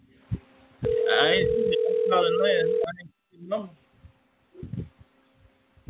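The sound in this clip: A telephone call ringing sounds one sustained, steady ringback tone lasting about two seconds, with people talking over it and talk continuing after it stops.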